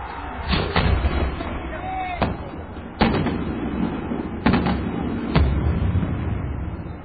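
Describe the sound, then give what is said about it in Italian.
Shots launch and explode in the sky about ten metres away, producing several sharp, loud cracking bangs at irregular intervals over a steady rumbling background. “vedete partire il colpo e poi esplodere in cielo.”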